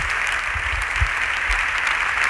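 Members of parliament applaud during a government question session, with dense, even clapping that holds steady and loud for the whole stretch.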